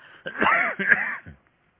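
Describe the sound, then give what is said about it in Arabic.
Coughing brought on by dusty Cairo air: a few harsh, voiced coughs and throat-clearing bursts in quick succession, then a short, faint final catch before silence. “معلش أنا يعني جو القاهرة يبدو فيه أتربة وكذا، يعني أستميحكم عذرا في كثرة السعال.”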